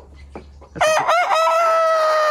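Chickens clucking and a rooster crowing in a barn: a few soft low clucks, then a loud, drawn-out crow that starts choppy and settles into a long sustained tone.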